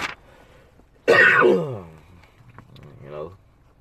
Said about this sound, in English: You hear coughing and everything.